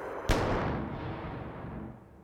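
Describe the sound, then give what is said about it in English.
One sharp, loud gunshot in a radio drama, a single crack that fades away in a long, decaying tail, with no talk around it. “Look out, she's got a gun. Basil, no. No.”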